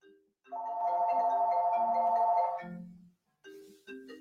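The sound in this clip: A telephone rings with an incoming call: a melodic electronic ringtone plays a long sustained phrase, drops to a lower note, then pauses before two short tone bursts.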